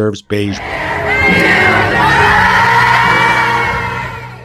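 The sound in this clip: About 20,000 fans cheer and yell outside Lincoln Financial Field before a stadium concert, after a brief spoken phrase. The roar swells and holds as a loud, continuous wall of whoops and shouts, then eases slightly at the end.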